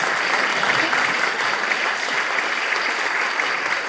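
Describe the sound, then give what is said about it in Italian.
Dense applause from a crowd greeting the announced winner of a short-story contest: a continuous, even clatter of many hands, loud and steady throughout without a break. “Applauso!”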